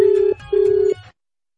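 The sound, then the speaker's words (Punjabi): An outgoing telephone call rings back with two steady electronic tone bursts, evenly spaced and clear, the second ending abruptly into silence. “ਤੇ ਕਾਲ ਆਪਾਂ ਲਗਾਈ ਹੋਈ ਹੈ, ਹੁਣ ਉਹ ਕਾਲ ਚੁੱਕਦੇ ਆ ਜਾਂ ਨਹੀਂ ਚੁੱਕਦੇ ਇਹ ਨਿਰਭਰ ਕਰਦਾ ਸਮੇਂ ਦੇ ਉੱਤੇ।”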